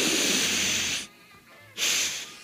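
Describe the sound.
Two long, loud sniffs through the nose, each a breathy hissing rush lasting most of a second, separated by a brief quiet pause, with no talking.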